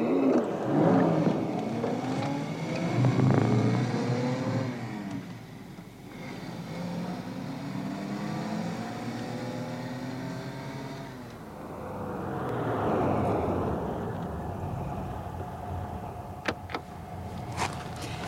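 A car driving on: a steady engine hum that rises and falls in pitch as it speeds up through the gears. It dips midway, swells again, then settles, with a few sharp clicks near the end.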